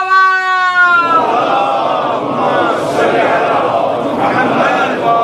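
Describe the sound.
A single voice calls out religious slogans, and a large crowd answers in a loud, sustained unison chant of slogans and salawat. The massed voices roar on with slight swells.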